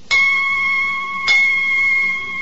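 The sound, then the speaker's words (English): Church bells in London ring out for six o'clock, two strong strikes about a second apart, each with a bright metallic attack and a long, steady ringing hum. “Oh, bells are ringing six.”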